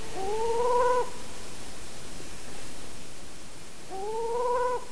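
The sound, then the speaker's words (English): A bird gives a quavering, aggressive warning call aimed at human presence. Two drawn-out, wavering calls, each rising at the start and then holding steady, sound over a constant hiss with a quiet gap between them. “Fourth clip is a quavering, aggressive warning call, probably also directed at human presence.”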